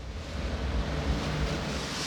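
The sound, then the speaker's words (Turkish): Strong wind at roughly eight thousand feet during a descent, roaring against the microphone as a steady, dense, low rushing noise with faint gusty fluctuations and no voices. “Burası çok rüzgarlı.”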